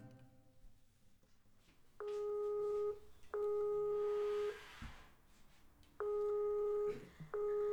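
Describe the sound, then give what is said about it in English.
A Skype call ringing tone: a clear electronic tone sounding in two pairs of sustained beeps, each pair separated by a pause, loud and alone. “Dialing Gotchar for my Skype lesson with him.”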